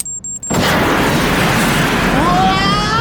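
An explosive boom as rockets fire on a car, a sound effect in a tabletop role-playing game. A few faint beeps give way to a sudden loud blast that swells into a sustained roaring rumble lasting to the end.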